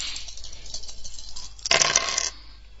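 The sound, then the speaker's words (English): Dice clatter as a single die is re-rolled in a Yahtzee-style game with four dice held: faint light clicking, then a brief louder rattle near the end. “Hold dice 1, hold dice 2, hold dice 4, hold dice 5, second roll.”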